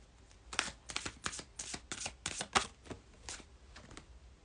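Tarot cards being shuffled produce a rapid series of crisp papery slaps and riffles, irregular and fairly quiet, with no talking.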